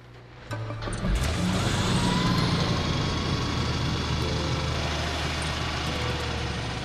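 Car engine and road noise rise in around half a second and hold as a steady low rumble, with a faint hiss across the top, to the end.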